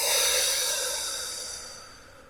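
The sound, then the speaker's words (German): A single deep, airy breath during a guided relaxation exercise, a soft hiss that starts strong and fades steadily over about two seconds. “Und dann atme einmal tief durch die Nase ein und durch den Mund wieder aus.”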